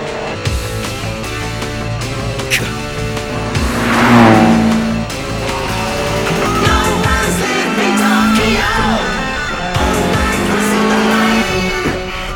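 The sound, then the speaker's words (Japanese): Engine of a rival Toyota MR2 or Nissan 180SX sports car, loud and sustained, revving and swelling as it approaches with a steady, gritty drone throughout. “やっと来たか。うちのチームじゃない。MR2 か180か。”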